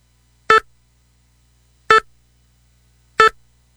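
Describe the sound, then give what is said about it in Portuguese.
Three short, identical beeps of a radio tone before an election broadcast, evenly spaced about a second and a half apart, each bright and clipped with a quick decay and silence between them. “Rádio Sobradinho e Jacuí FM, após o toque de 5 segundos, horário eleitoral.”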